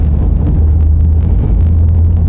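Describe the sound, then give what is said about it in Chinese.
Low, steady engine rumble of a car being driven, a loud continuous droning hum with no voices over it. “秀儿，开车先把我送到吴老师那儿。”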